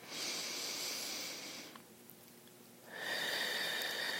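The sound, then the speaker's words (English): A deep breath taken during a relaxation breathing exercise: a long breathy inhale, a quiet pause, then a long hissing exhale, soft and without talk. “And another deep breath.”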